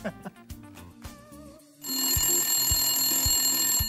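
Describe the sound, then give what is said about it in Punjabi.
A telephone rings with a bright, steady, continuous bell tone that starts partway through and holds to the end, after a sparse, tonal opening. “ਸਰਗੁਣ ਤੁਹਾਨੂੰ ਐਮੀ ਵਿਰਕ ਦਾ phone ਆਇਆ”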